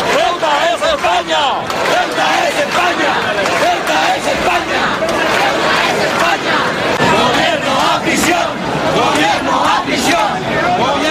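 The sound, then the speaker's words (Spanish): Loud crowd of about 7,500 people rallying in a town square in Elche, a continuous roar of massed voices with shouting and cheering surging throughout, no single speaker standing out. “Ahí lo escuchan, alrededor de 7.500 personas. Según datos de la policía local, se concentraban ayer en la Plaza de Valls de Elche”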